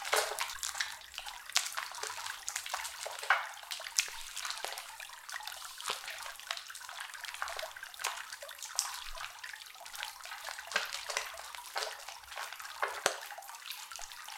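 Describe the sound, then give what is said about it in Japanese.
Water trickles and splashes softly as a body is washed, a faint continuous wet patter broken by many small drips and splashes throughout. “まずはお体洗ってまいりますね”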